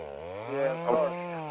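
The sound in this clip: Chainsaw buzzing in a video game, a steady, loud, harmonic motor whine that swells briefly in the middle as it cuts, then settles back to an even drone.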